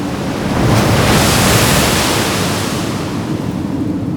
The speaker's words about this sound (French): se leva et provoqua une vague qui ébranla toute la côte.